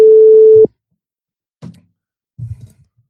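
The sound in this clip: A telephone dial tone sounds while a dropped caller is being rung back. The tone is loud, steady and single-pitched, lasts about half a second and cuts off abruptly. A couple of soft, dull knocks follow.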